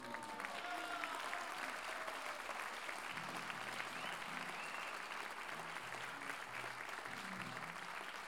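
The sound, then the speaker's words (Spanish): Faint, steady audience applause at a folk music colloquium, requested in honour of a singer: continuous dense clapping that holds an even level for about eight seconds, with a few voices faintly mixed in. “Así que, de verdad, y muy de corazón, pedí un aplauso enorme.”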